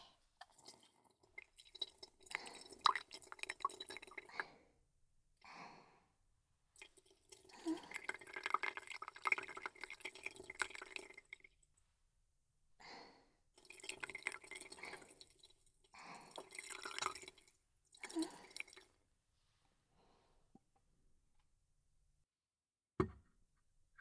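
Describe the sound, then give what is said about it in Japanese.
Hot water poured in a few separate, steady measured amounts, each a faint trickling and dripping sound, with short quiet pauses between pours. “なるべく音が立つように、一定の量とお湯をかけてあげて、”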